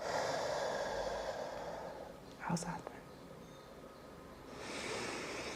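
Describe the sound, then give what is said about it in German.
Slow, audible breathing in and out during a guided breathing exercise: a long, airy exhale, a brief snort-like catch in the middle, then a softer, hissing inhale, all faint. “Ausatmen. Wieder einatmen.”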